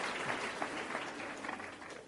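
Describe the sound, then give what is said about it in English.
Applause from an audience at a church service: a steady, dense patter of many hands clapping, continuous and fairly even in loudness throughout about two seconds. “Can we give him a round of applause?”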